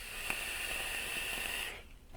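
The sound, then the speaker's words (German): Faint, steady airy hiss of a draw on an e-cigarette, lasting under two seconds and then cutting off, with no talk over it. “Zieh mit einer E-Zigarette in einem Audio-Podcast, Alter. Das hört man kaum. Guck mal auf den Ausschlag jetzt.”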